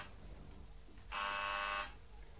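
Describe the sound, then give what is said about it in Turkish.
A door buzzer rung once in a radio drama gives a steady, harsh electric buzz lasting under a second, loud over low background hiss, with no talk during it. “İşte biri kadının kapısını çalıyor.”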